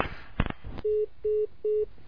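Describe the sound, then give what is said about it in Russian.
A telephone call signal sounds in a radio studio: three evenly spaced, steady electronic beeps of the same pitch, preceded by a few brief clicks and rustles. “У нас еще один звонок в студии. Да, у нас еще звонок.”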